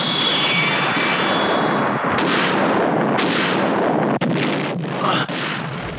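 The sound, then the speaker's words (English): Laser torpedoes fire and explode in dense, roaring sci-fi blasts, with a thin falling whine at the start and a few sharp cracks cutting through the continuous loud rumble. “Laser torpedoes.”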